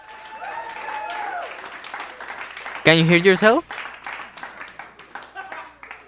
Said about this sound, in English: Okay, so we had an audience here at the station and they were cheering for you.